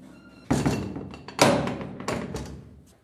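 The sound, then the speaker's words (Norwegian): A heavy cell door in a former Gestapo cellar in Kristiansand slams shut, giving three loud thuds, each trailing off in a lingering, fading echo. “Det er noen fæle lyder, Lasse, å høre disse dørene smelle igjen.”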